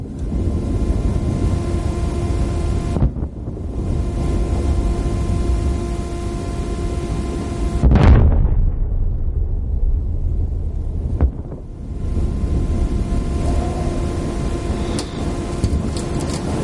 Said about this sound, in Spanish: Fuera del hotel, en las enormes montañas nevadas vuelven a sonar las explosiones.